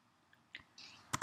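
A computer mouse is right-clicked while a file is created in a software project: two quick, soft clicks close together near the end, after a stretch of faint low noise.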